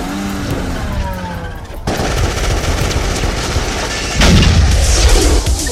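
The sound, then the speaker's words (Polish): Loud gunfire from a shootout in a film scene: dense, continuous automatic bursts with heavy blasts that grow more intense toward the end. “Do wszystkich jednostek mamy strzelaninę na 24 na High State.”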